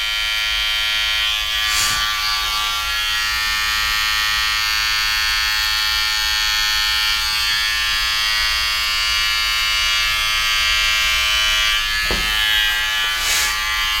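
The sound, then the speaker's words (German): Steady high buzz of an electric shaver running while shaving a nose, continuous and even throughout with only slight changes in texture. “Du hast heute zum ersten Mal auf meiner Nase rasiert.”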